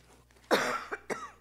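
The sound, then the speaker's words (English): A person with a tickle in the throat coughs during a church service: one strong, harsh cough followed by two shorter, weaker coughs against a quiet background. “When we get to COVID-19 days, if somebody coughs, it's a major concern. I'm okay. I just have a tickle in my throat.”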